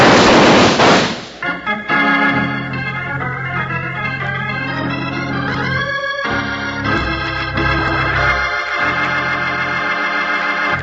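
A loud, sharp gunshot blast in an old radio western drama opens the scene, then gives way to sustained dramatic music that carries on to the end.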